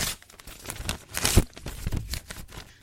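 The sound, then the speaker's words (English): Paper notes being ripped up by hand: quick, ragged bursts of tearing and crinkling that grow loudest midway, then continue more softly in scattered rips. “By the way, everyone, he's ripping up my notes. Okay, so I'm throwing it away. It's in the trash.”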